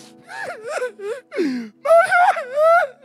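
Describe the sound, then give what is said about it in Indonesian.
A voice imitates sobbing with a series of gasping, wavering cries and moans that rise and fall in pitch, broken by short breathy pauses. “Tapi di rumah, orang menangis terisak-isak gini, diterima oleh keluarganya.”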